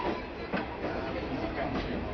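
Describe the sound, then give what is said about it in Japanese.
A local train pulls out of a station, a steady low rumble and rattle of the railcar with faint rhythmic clicks running through it. “子どもたちのバイバイの声で出発をいたしました。人吉温泉駅を出て湯の前行きと。”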